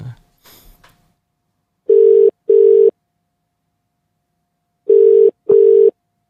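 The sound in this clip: Ringback tone of an outgoing telephone call: two double bursts of a steady mid-pitched tone separated by a silent pause, with brief faint handling noise at the start.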